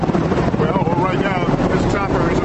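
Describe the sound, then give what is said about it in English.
A rescue helicopter swoops in to lift mock casualties from a rooftop during a US and South Korean military exercise, its rotor and wind noise a continuous loud roar with voices talking over it. “Colonel Kleisner is interrupted by a rescue chopper swooping in to pluck mock casualties from a rooftop”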